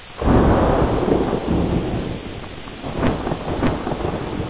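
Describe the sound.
A heavy night rainstorm on a mountain road pours as a dense, steady wash of rain, with a deep rolling rumble of thunder throughout and a few sharper crackles near the end.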